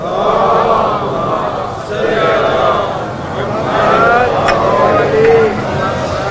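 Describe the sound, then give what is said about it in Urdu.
A crowd at a religious gathering recites salawat aloud together, many voices chanting in unison in loud, swelling waves that rise and ease repeatedly. “مل کے بلند آواز میں صلوات پڑھیں۔”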